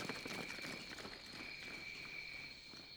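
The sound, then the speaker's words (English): Soldiers run past, and their footsteps form a faint, quick, uneven patter of many steps. A thin, steady insect-like whine sits above them. “The soldiers ran past their hiding place. The first one went past, then another, and another.”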